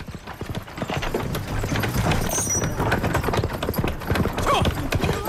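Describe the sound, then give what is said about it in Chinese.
Horse hooves clip-clop as a man drives a horse-drawn cart. The hoofbeats are steady and rhythmic and continue throughout. “见到自己的丈夫驾着马车的样子”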